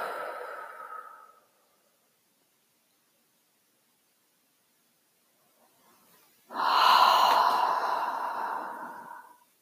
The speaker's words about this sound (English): And we just invite you to breathe with us as we close.